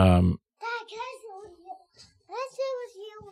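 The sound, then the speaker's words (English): A small voice of a three-year-old boy talks in a studio: a few short, high, soft phrases with pauses between them, following a brief loud burst at the very start. “And if you hear in the background a small voice talking, that would be my 3-year-old son”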